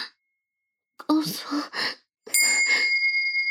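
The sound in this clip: A bell strikes and rings with a bright, sustained tone that holds to the end, overlapping breathy sighs and gasps from a voice that begin just before it.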